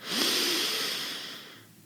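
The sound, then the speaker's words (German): A single long, breathy inhale through the nose during a guided breathing exercise: a soft airy hiss swells quickly, then fades slowly, with no talk. “Wir schließen gemeinsam die Augen und wir atmen gemeinsam durch die Nase ein”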